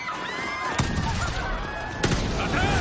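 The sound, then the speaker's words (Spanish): Two sharp gunshots, a security guard being shot during a heist in an action thriller, each a short loud crack over a continuous tonal background. “El guarda de seguridad recibe un disparo.”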